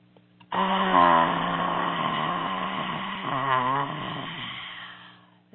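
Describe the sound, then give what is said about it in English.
A dragon breath, a deep exhale pushed out with the tongue stuck out, comes as one long, voiced, growling rush of breath. It holds steady and loud for several seconds and then fades out, with no talking. “If you want to do the dragon breath, you can. Just stick your tongue out. Another deep breath, belly breath.”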